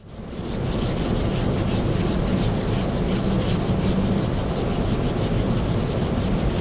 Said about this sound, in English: That was the sound of using a cotton swab to clean a painting.